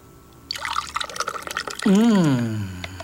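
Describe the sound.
Rice pudding with milk being stirred, giving a short run of soft wet sloshing and dripping sounds; a voice joins near the end.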